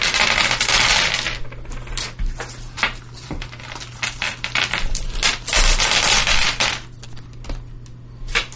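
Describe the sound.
A big pile of dice is handled, giving a continuous clatter of many small plastic clicks and rattles that swell and ease, over a low steady hum.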